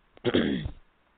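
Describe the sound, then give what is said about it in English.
A single short cough, one rough, throaty burst of about half a second, fairly faint and alone. “Pardon me. I needed to cough a little bit.”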